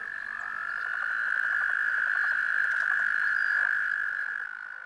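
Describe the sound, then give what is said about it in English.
Toads call in a mating chorus, making a continuous high-pitched trill that stays strong and steady throughout before easing off at the very end. “That was the sound of a toad mating ceremony.”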